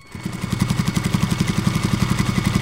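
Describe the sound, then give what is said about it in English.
Sewing machines running in a clothing workshop, a fast, even mechanical clatter of rapid stitching pulses that starts quickly and keeps a steady rhythm. “KPBS reporter Elena Farrell joined Ortega among the sewing machines at Norma's Apparel in National City, where his concepts become reality.”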